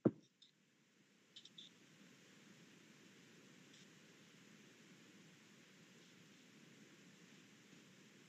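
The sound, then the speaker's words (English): Three dice rolled, heard as a few faint, sharp clicks and rattles at the start and again shortly after, then only a soft steady hiss. “Roll me those three dice for your clarity.”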